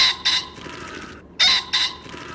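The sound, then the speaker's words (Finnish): Pheasant calls from a game bird introduced to Finland for hunting: two harsh, raspy double-note calls, loud and separated by about a second, with no other sounds. “Tämä nyt fasaani.”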